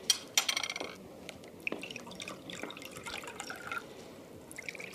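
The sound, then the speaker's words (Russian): Liquid poured from a freshly opened bottle of cola or juice into glasses, heard as faint trickling and dripping with a few sharp clicks near the start. “Он открывает бутылку.”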